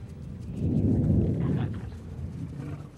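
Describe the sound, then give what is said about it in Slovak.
Deep thunder rumbles from underground, a broad, heavy roar that swells over the first second, holds, then eases slightly without any clear crack or break. “A podľa mňa to bol hrom. Hrom spod... pod zemia.”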